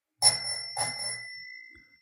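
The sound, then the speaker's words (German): Two bright strikes of a bicycle bell, each a sharp ring whose clear metallic tones hang on and fade slowly over about a second and a half, alone without voices. “Lass mal das Klingeln ertönen”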